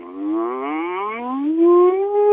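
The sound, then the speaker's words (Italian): A closed-lip vocal hum glides as a siren, sliding smoothly and continuously from a low note up to a high one, sustained and alone. “Possiamo provare la nostra voce facendo il cosiddetto muto, cioè una sirena in labbra chiuse, partendo dalla nota più grave alla nota più acuta”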